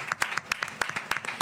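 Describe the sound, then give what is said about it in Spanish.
Audience applause at a Bilbao city festival event comes as a scattering of sharp, distinct claps, irregular and fairly thin rather than a full ovation. “¿Por qué no le damos un aplauso a Eneko y a todos los que faltan en esta escena agustía?”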